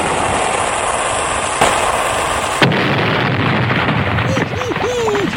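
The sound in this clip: Torpedo-firing explosion sound effect: a dense roaring rush of noise with a sharp burst partway through, followed by continued rumbling and a few faint whistling, warbling tones.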